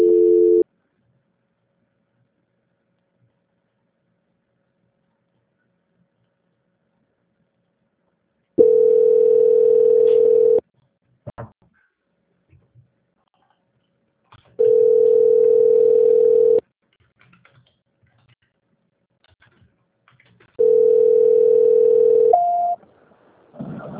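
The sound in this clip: A steady mid-pitched telephone tone sounds in long beeps of about two seconds each: three full beeps separated by stretches of near silence with faint clicks, plus a cut-off beep at the very start.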